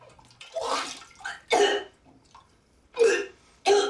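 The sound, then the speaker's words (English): A woman retches and vomits into a toilet bowl after forcing herself to gag. Several loud, harsh heaves with wet, splashing throat sounds are separated by quieter pauses and fainter gurgles. “Kneeling in front of the toilet, she sticks her fingers down her throat and vomits into the bowl.”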